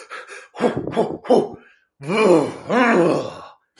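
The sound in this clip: Voiced, groaning exhalations from a person doing a particular breathing exercise meant to calm the body: three short breathy pulses, then two long, drawn-out sighing breaths, loud and with no talk.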